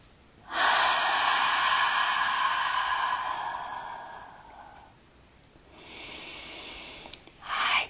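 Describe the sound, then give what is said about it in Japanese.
A long, breathy exhale through the mouth during yoga nidra breathing before sleep, a steady rush of air that gradually softens. A quieter breath and then a brief, sharper one follow. “鼻から吸って、もう一度口から長く吐きます。”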